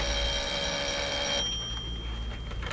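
A telephone rings in a café with a bright, sustained ringing tone for over a second, then fades into quieter background noise.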